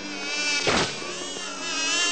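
Hornets buzz in a swarm, a steady, dense droning hum that swells into a brief louder burst near the middle.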